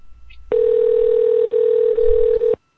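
A mobile phone call rings out as a steady, single-pitched electronic tone of about two seconds, broken by a few very brief dips before it stops abruptly.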